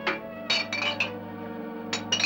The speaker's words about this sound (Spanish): Coge una papelera casi llena de botellas vacías y añade las de la bandeja.